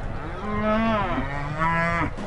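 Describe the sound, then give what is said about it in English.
Cattle on an abbey's working farm with eighty head: a single long, drawn-out moo, loud and rich in tone, with no voices. “The abbey is also a working farm with 80 head of cattle.”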